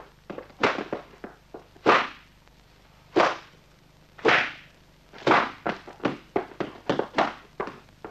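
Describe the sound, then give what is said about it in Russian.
Sharp slapping blows as a man beats a woman in a dramatized scene. Many hard smacks land in an irregular run, a few spaced apart at first, then a quicker flurry toward the end. “Федор догоняет ее и бьет.”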